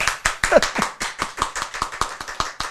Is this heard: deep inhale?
no